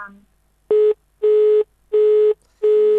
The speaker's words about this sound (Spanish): Bueno, cayó ahí la llamada.